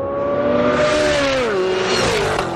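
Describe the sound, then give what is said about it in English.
A race car roars during a high-speed racing demonstration at the General Motors Proving Grounds in Milford, Michigan. The loud, continuous engine note holds steady, then drops in pitch midway as the run goes on. “President Trump took in high-speed racing demonstrations”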